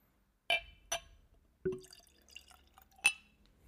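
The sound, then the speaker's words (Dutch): A honey-containing drink is poured into a glass: four faint, sharp glassy clinks and drips, separated by soft, quiet liquid trickling. “want er zit namelijk honing in. We gaan hem nu inschenken.”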